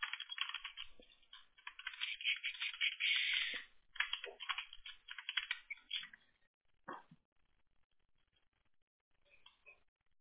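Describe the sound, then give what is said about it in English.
Quick, light tapping of a text message being typed on a phone or keyboard starts as a dense run of clicks, then thins to scattered taps and short pauses. “Here it comes. I typed it.”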